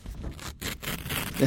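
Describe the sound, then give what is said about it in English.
Rustling and scraping of an envelope being handled and opened during a mock Nobel Peace Prize announcement, with several dense bursts of paper noise. “That's an envelope.”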